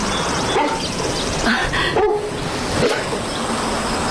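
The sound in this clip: A dog barks and whimpers in a few short yelping bursts over a steady background hiss.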